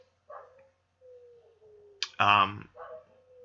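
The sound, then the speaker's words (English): Dogs howling in the background: a faint, thin, drawn-out howl slowly falls in pitch for about a second. A louder short, yelping bark and a brief softer yip follow. “if you can hear kind of the dogs howling in the background, I apologize.”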